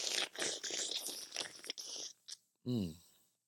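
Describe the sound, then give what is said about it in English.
Crunchy bites and chewing into a juicy fruit with a rind, many loud wet crunching bursts in close succession, then a brief pause before one more chewy burst. “I don't think we've ever eaten on the show. We haven't. We do this more often. This is ASMR.”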